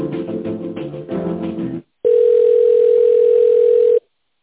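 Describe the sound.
A telephone tone plays while a call is being transferred to a tender department. A stretch of denser tonal sound cuts off, and after a short silence a loud, steady single-pitch tone holds for about two seconds before stopping abruptly.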